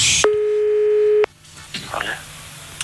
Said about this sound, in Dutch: We worden gebeld. Ja. Die bellen we? Ja.